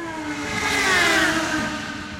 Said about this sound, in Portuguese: Uma vinheta pro Carros São Como Lanchas